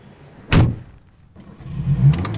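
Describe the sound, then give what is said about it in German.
A car engine starts: one sharp thud is followed by a pause, then a low engine rumble that builds and settles into a steady drone. “Da vorne steht mein Auto. Ja, komm. Wir fahren eine Runde.”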